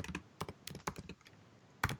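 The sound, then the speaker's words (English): Fast typing on a computer keyboard comes in quick bursts of clacking keystrokes separated by brief pauses, with a louder cluster of keys near the end. The sound is fairly quiet, with no voices. “He is feverishly typing.”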